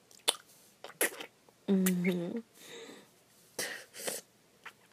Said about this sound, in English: I was spitting saliva, sorry, I got my throat lubricated.